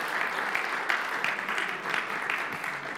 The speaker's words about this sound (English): Can you guys welcome our lovely assistants? Come on, we'll give them a big hand.